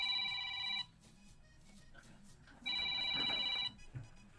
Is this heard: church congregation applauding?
no